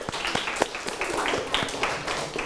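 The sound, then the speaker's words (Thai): A few people clap for a friend, their uneven, sparse claps overlapping loosely. “จบยังจบแล้วปรบมือให้เพื่อน”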